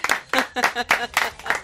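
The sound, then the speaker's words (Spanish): Audience applause in a room full of people, heard as steady rhythmic clapping with evenly spaced, sharp bursts about a quarter-second apart, lasting under two seconds. “Ese aplauso, por favor, que no soy yo la única que está en esta habitación, que hay más gente.”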